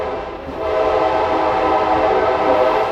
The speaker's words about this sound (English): They included a ride on an historic train,